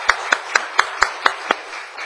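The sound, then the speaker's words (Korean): A Korean church audience claps in thanks. Seven sharp, evenly spaced claps land in a steady rhythm, then stop. “또 우리 박수 한번 치시고요.”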